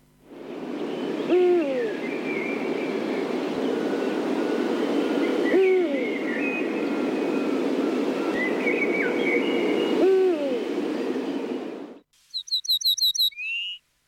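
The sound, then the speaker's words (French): Eurasian eagle-owl song, the world's largest nocturnal raptor, recorded at night at the foot of cliffs: three deep, low hoots spaced several seconds apart over a steady rushing background noise, with a brief burst of high chirping at the end. “pour tenter d'entendre son chant. Même s'il fait souvent froid, le contact avec le plus grand rapace nocturne du monde vous fera frissonner de bonheur.”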